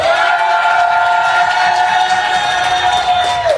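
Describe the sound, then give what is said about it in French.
A live audience in the Annecy amphitheatre cheers and shouts in a loud, steady roar that lasts throughout, with a high note held above the crowd noise. “on est en fait en direct de l'amphithéâtre d'Annecy avec un public chaud. Est-ce que je peux avoir un maximum de bruit ?”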